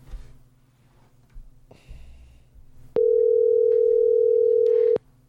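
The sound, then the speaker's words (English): A telephone ringback tone on an outgoing call: one loud, steady tone lasting about two seconds, which follows a stretch of low, shifting background noise. “We're going to call Howard Kramer. Let's see if he picks up.”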